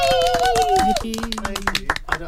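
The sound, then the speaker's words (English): A small group claps and cheers in a radio studio after a live musical performance during a fundraising Radiothon. Scattered claps run beneath louder voices calling out happily. “we're all going to give you a round of applause.”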